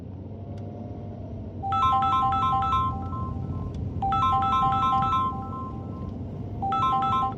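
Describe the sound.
A phone's electronic ringtone sounds in three bursts of rapid, high, chirpy melody separated by short pauses, with the last burst cut off. It plays alone over a low, steady background hum.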